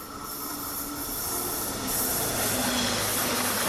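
A train departs from the track with a steady rumble, hiss and squealing wheels. The sound grows slightly louder as it goes, with no voices.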